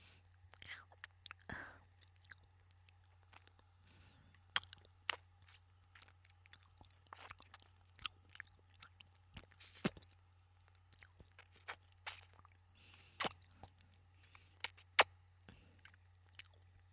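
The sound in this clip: Chewing and biting on lobster from a barbecue restaurant: many faint, crisp clicks, wet squishes and small crunches at an irregular pace over a steady low hum.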